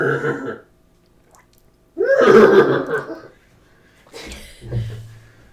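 A person imitates a horse neigh with one loud, rough, breathy whinny lasting about a second, with shorter vocal sounds before and after it.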